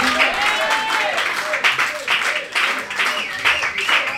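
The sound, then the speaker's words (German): Applause from the audience at a music jam session in a pub, steady and unbroken for the whole stretch, with voices and some whistle-like tones mixed into the clapping. “Applaus für Stefan!”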